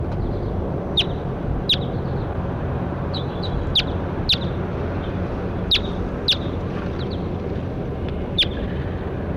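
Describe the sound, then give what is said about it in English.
Goldfinch calls from a bird flying over: a scattered series of short, sharp, high chirps, each very brief, standing out over a constant low rumble, with no talking. “That was 7-6 responding to Goldfinch flying over.”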